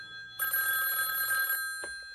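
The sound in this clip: A telephone rings in one sustained bright burst of about a second, then a single brief click follows.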